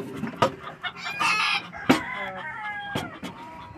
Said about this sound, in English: I need to sell some chickens, apparently.